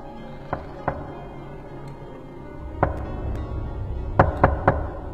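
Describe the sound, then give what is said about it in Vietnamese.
Knocking on a door: a few sharp, hollow raps in irregular groups, with two spaced knocks, then a single one, then a quicker run of three, over a low, steady background hum. “Đột nhiên ở ngoài cửa lại có tiếng gõ.”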